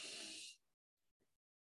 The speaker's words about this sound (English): I'm going to take a deep breath in, and you may join me.